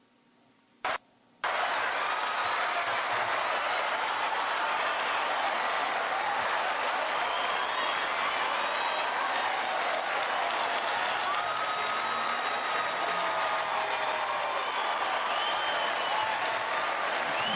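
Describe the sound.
A crowd gives a standing ovation at a live show. After a short quiet and a brief burst, a loud, dense roar of clapping and crowd noise starts abruptly and holds steady to the end.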